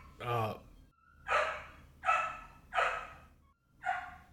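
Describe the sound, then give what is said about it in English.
A dog barks repeatedly indoors-free of other noise: a series of sharp, loud, evenly spaced barks, each a short burst, with brief quiet gaps between them. “I'm just waiting for my dog to stop barking.”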